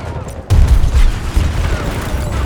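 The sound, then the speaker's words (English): A grenade explosion in a military shooter video game: a sudden heavy boom with a deep low thump, followed by a lingering rumble and a busy crackle of ongoing battle noise. “Grenade out!”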